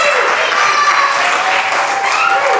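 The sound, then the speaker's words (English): A church audience at Restoration Church in Dover cheers and applauds during a morning service. Bright, continuous clapping is mixed with shouts and whoops for the whole short clip. “Well, good morning. If you're here in Dover, please make some noise. Let everybody know that I'm not here alone.”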